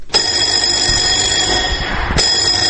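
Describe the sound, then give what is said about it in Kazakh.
A school bell rings at the start of the first day of school in Almaty. It gives a loud, continuous metallic ring and briefly restarts near the end. “Қыркүйектің бірі күні таңертеңгі сағат 10-да Алматының барлық мектептерінде алғашқы қоңырау соғылды.”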